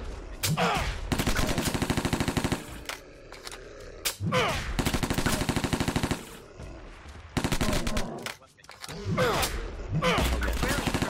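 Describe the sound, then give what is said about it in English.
Rapid automatic gunfire from an MP5 set to burst fire in a video game: several dense bursts of sharp shots separated by short, quieter gaps, loud throughout. “MP5 equipped. Uzi burst fire equipped. MP5 equipped. Short bow equipped. MP5 equipped. MP5 equipped. Ah, come on. Burst fire.”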